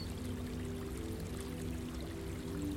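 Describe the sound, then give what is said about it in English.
Water trickles and pours steadily in a garden water feature with lily pads and flowers floating on its surface, a soft, continuous splashing wash with a low hum beneath it. “creating the most lovely water feature.”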